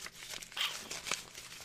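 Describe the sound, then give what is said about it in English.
Crinkling and crackling of a crumpled piece of paper being unfolded, a run of dry, irregular rustles with a couple of sharper crackles standing out at moderate loudness. “I think I got it crunkled up in this piece of paper.”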